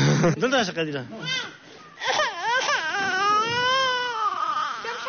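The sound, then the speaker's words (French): A little girl of about two cries in loud, wailing sobs, her voice swooping up and down in pitch through several drawn-out cries in a row. “La petite fille a vu son papa partir, voilà, elle se met à pleurer.”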